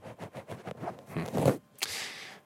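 A microphone windscreen cover is pulled off, giving a quiet run of short rubbing scrapes followed by a brief, sharper rasp like fabric tearing.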